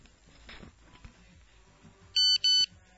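Incoming message alert: two short, loud, high electronic beeps in quick succession, sounding after a stretch of faint low background noise.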